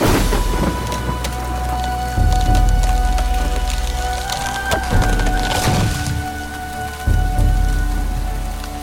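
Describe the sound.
Heavy rain from a storm pours down in a dense, steady hiss, with low rumbling surges that may be thunder swelling in at a couple of points. No voices are heard.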